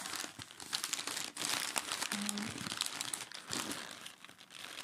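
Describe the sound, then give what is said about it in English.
Paper crumples and crinkles on top of a small box as a hand feels it, a dense, crackly rustle in irregular bursts that rise and fall throughout, fairly quiet and with no talk. “So there's paper on top, and from what I can feel, the box underneath is about”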